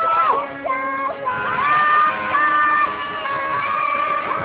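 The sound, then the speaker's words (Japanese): Schoolchildren cheer at a white ferry passing off the coast near their school in Izumo, Shimane, a sustained chorus of high shouts and whoops from many young voices that swells and dips without pause. “でもなぜこんなに熱心に声援を送っているのでしょう。”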